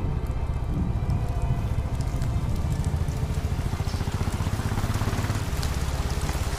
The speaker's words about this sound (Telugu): వర్షం స్టార్ట్ అయిపోయింది